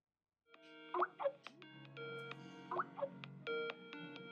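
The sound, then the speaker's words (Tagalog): Skype call ringing tone: a quiet, bubbly electronic melody of bright chiming notes that repeats in two similar phrases, with no other sound behind it. “Tawagan ko nga siya sa Skype.”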